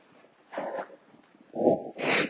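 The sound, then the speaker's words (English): A person sniffs in freezing cold with three short, breathy nasal inhalations. The second and third are louder and closer together. “So, I'm sniffing, it's freezing cold.”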